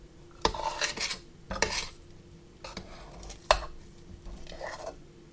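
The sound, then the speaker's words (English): A spoon scrapes and taps against a bowl as buttery mashed potato is spooned over meat. A few sharp clinks of metal on dish stand out from softer scraping, all fairly faint and without talk. “I'm going to spoon it into my bowl with the meat. So what I'm going to do is spoon it over the top.”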